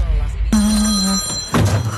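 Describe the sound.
A telephone rings with an incoming call: a bright, sustained electronic ring lasting about a second over a busy background, ending with a brief louder burst.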